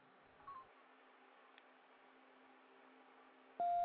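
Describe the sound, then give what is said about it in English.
A beep on a phone line: faint static and low hum give way to a sudden loud, steady mid-pitched tone at the very end. “Hello, all this noise and beeping in my ear.”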